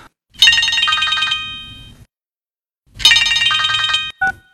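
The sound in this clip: A telephone rings twice, each ring a bright, buzzing electronic trill lasting about a second, separated by a pause and followed by a brief beep.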